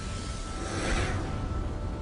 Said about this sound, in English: Seen from space, an object soars down to Earth in a haze of green. A pink jet ignites in the back.